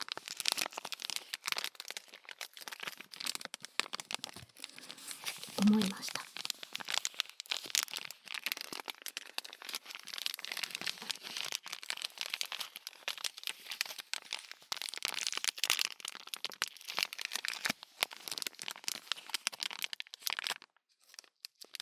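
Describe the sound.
Crinkling of a sturdy packaging bag being handled, a dense, continuous plastic crackle with many sharp crunches running throughout, no talking, and a brief pause near the end.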